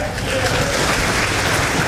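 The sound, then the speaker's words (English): Standing applause from an audience at a Republican Party gathering in West Kentucky: dense, steady clapping that holds at an even, fairly loud level throughout, with some voices mixed in. “If you're thankful for Senator McConnell, can you please stand up and give some applause?”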